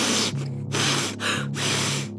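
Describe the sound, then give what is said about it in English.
A voice imitates a giant sniffing: a series of loud, breathy, drawn-out sniffs with short pauses between them, harsh and hissing with a low nasal hum underneath. “And he began to sniff.”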